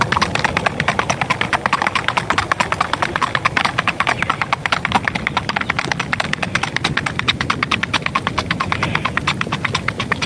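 Icelandic horses running, their hooves clip-clopping in a fast, steady stream of many sharp beats over a low, rumbling background.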